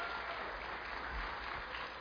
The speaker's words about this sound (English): So can you give up a quick round of applause for our tech team?